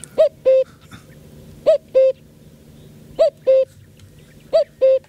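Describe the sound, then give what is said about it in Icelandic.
A common cuckoo calls four times, each call a clear two-note cu-coo with the first note slightly higher, spaced by short pauses over faint background hiss. “hann heitir á latinu Cuculus Canorus og það tala Cucu. Cucu.”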